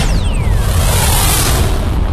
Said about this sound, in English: Tickets to a rocket ship? Well, here you go, and hang on tight as John Lee Dumas is about to take you on a wild ride. Ignite.